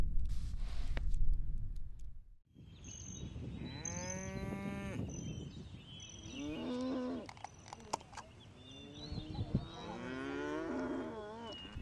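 A herd of cattle resting during a long drive moos in several drawn-out, deep, tonal calls of varying pitch over a low, steady rumble.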